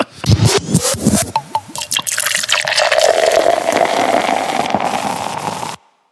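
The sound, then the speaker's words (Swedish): Hands being washed under a running tap: a few splashy bursts at first, then a steady loud stream of water that continues for several seconds and stops abruptly. “Jag vill tvätta händerna.”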